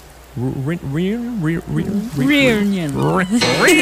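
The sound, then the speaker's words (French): A human voice imitates a cat meowing in a quick run of whiny, wavering cries that swoop up and down in pitch, fairly loud and close together. “T'aimes pas mes imitations de chats?”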